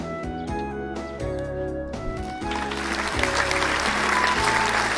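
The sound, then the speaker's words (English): A musical jingle gives way to live studio audience applause for the sitcom Angry About Soup. The clapping swells in after the music and grows into a dense, steady roar toward the end. “We now return to Angry About Soup, filmed in front of a live studio audience.”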